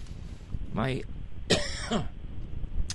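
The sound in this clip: A person clears an itchy throat twice, in two short, rasping bursts separated by a brief pause, over faint background noise.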